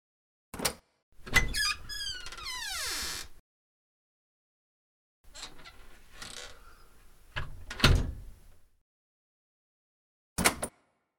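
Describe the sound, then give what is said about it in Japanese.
A door to a room that can't be freely entered or left is opened: a sharp click, then a long creaking squeal falling in pitch, later a stretch of grinding, rattling mechanism and a final sharp clack. “勝手に出入りができない部屋。 ここだよ。 さあ、開けて。”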